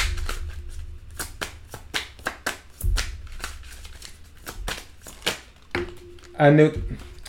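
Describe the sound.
Tarot cards are shuffled and drawn in many quick, crisp riffling bursts with brief pauses between them, and a voice speaks briefly at the end.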